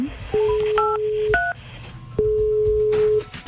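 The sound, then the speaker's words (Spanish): Touch-tone telephone dialing as a number is keyed in to call a listener: a few clear electronic beeps and steady tones, with short pauses between them, heard alone with no talk. “Vamos a marcar.”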